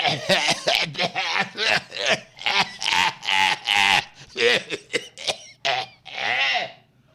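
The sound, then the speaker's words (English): A voice imitates severe, wet coughing during a meal, as if hacking up phlegm: many harsh, throaty bursts in an uneven rhythm, some drawn out into rasping, wheezy sounds. “the entire meal, he's coughing up pieces of lung. Like, I mean, severely coughing.”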